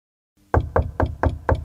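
Five crisp knocks on an office door, each a sharp hollow rap in an even, steady rhythm, with no voices.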